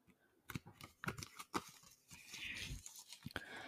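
Playing cards being folded and creased by hand: several crisp snapping clicks from the bends, followed by a longer papery crinkling rustle, all fairly faint.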